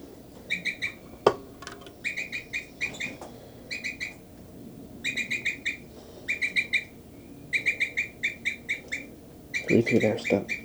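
A bird calling near its nest, repeated bursts of quick, bright chirping notes in clusters of several, fairly faint, separated by short pauses, with a low rustling thump near the end.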